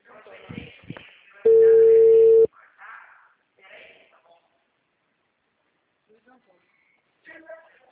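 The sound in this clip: A steady telephone tone sounds after a call drops, one loud, even beep lasting about a second, with people talking before and after it.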